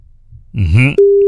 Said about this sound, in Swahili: Ndo hiyo inalia simu.